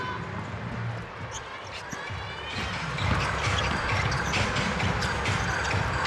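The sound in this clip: A basketball is dribbled on a court, making a steady run of repeated dull bounces that continue throughout with faint background noise.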